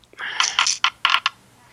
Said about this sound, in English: Let's roll the dice, see what's next.